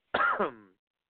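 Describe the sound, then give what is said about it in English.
A single short cough, a rough burst that trails into a brief voiced, throat-clearing tail, heard alone against silence. “Sorry there, I didn't cough because of her accomplishment”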